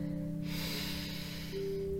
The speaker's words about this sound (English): I'll just invite you to take another deep breath in